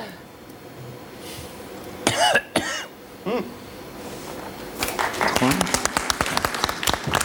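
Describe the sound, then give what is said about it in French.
A man coughs a few times on a record made in São Paulo, Brazil. Scattered clapping then swells into a stretch of many claps. “Et en face B, il y a un homme qui tousse vers la 11e minute.”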